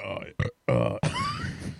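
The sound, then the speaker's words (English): A loud, croaking burp after drinking Stiegl lemon radler beer, broken into a few rough bursts with short gaps between them, ending in a longer drawn-out rumble. “it tastes worse coming up. It really does. You got to burp this shit up.”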